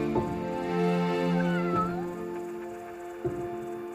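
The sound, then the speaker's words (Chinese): A cat meows a few times, with clear tonal calls, one of them longer and more drawn out, heard on its own without talk. “我打算放弃那只猫，为它找个更好的主人。”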